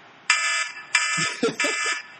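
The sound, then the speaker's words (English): An official-sounding buzzer blares three times in harsh, sustained blasts with rich, buzzing harmonics. Voices talk and react underneath the blasts. “That was a very official sounding buzzer.”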